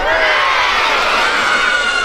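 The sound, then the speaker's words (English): A crowd from local East Cowes schools shouts hooray during three cheers for the organisers. One loud, sustained collective shout fills the whole clip at an even level. “I think while we're in good voice, we should give three cheers to the organisers.”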